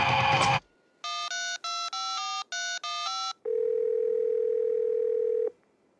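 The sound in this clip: Telephone keypad tones: after a short noisy clatter, a quick run of touch-tone beeps sounds, then a long, steady, single-pitched line tone holds for about two seconds before cutting off.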